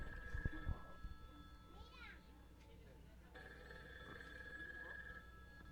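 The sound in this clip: A telephone rings for a radio listener's call, in two bursts of bright electronic ringing separated by a quieter gap.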